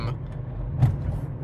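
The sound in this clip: Steady low rumble of a car being driven, an even engine and road drone with no clear events and no voices.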